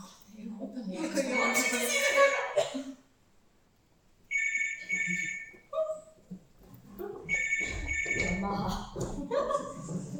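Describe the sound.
A telephone ringing during a stage play: two bright, trilling ring bursts separated by stretches of people talking, with voices also continuing after the second ring.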